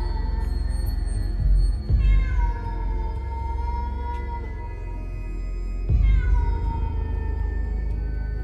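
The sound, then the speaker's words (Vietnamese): A cat yowls plaintively around a house: long, drawn-out wailing meows with wavering pitch, swelling twice into louder cries, alone without voices. “Đâu đây tiếng con mèo vẫn cứ nhảy nhót quanh nhà kêu lên thê thiết.”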